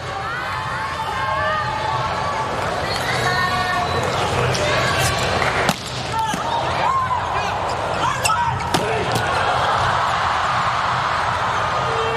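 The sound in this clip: A volleyball serve and rally in a Japan–United States match: a few sharp ball slaps over constant crowd noise, with shouting and scattered cheering around the hits.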